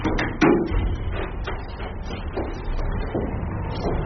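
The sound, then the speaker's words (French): Air conditioning compressors hum steadily on the third floor of a building with precision machining rooms, a continuous low, dense drone that stays level throughout. “Là, le bruit que vous entendez, c'est simplement les compresseurs de la climatisation.”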